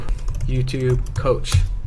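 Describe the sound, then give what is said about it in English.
Typing a search into Instagram on a computer keyboard, a quick run of soft key taps lasting under two seconds. “So you're gonna go to search inside Instagram. You're gonna type in a niche that you're interested in”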